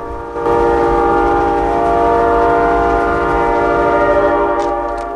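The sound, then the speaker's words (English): A train rolls loudly and steadily as it plunges into a tunnel, its heavy rumble topped by a sustained, multi-toned horn-like drone that stays unbroken throughout. “before the train plunges into a tunnel”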